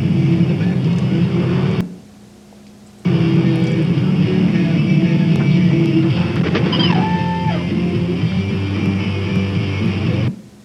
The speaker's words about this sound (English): This one you'll find interesting. Although there's no collision, there's a near collision.